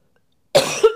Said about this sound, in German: bisschen Husten, oder?